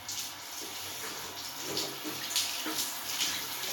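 Water runs in a bathroom while a shower is being taken, a faint, steady splashing hiss that continues without a break.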